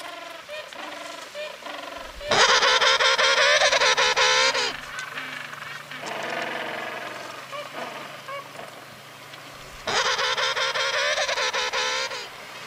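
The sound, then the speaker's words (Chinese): Penguin calling in loud, harsh, honking brays. Softer calls come first, then three long harmonic bursts, the middle one quieter than the other two. “penguin, penguin，企鹅。”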